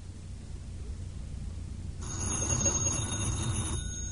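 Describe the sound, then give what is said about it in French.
A telephone bell rings once in a single bright, buzzing burst of under two seconds over a steady background hiss, which continues before and after the ring. “Le téléphone. C'est le téléphone.”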